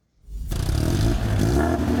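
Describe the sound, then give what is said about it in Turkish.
An Italian car's exhaust note while revving, with a hitch in its turbo. The engine bursts in after a brief silence and holds a loud, rough, low rumble, steady to the end with no talk. “Ve egzozun notası harika sanki, değil mi? İtalyan arabası. Turbosunda bir takılma var. Egzoz titriyor.”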